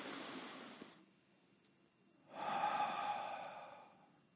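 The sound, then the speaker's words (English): Deep breathing during a guided breathing exercise, in through the nose and out through the mouth: two soft, airy breaths, the first fading out and the second rising and holding longer, faint and without talk. “that deep breathing of in through your nose, out through your mouth, do it with me here.”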